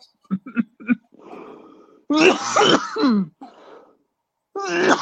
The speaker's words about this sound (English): Boy, that was cough fit worthy?